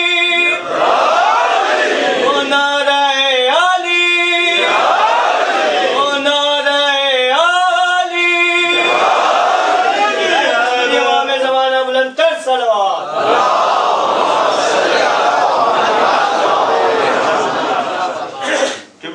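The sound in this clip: A crowd at a religious gathering chants a devotional slogan in answer to a leader's call, several loud unison chant bursts following one another, then a noisy mass of crowd voices.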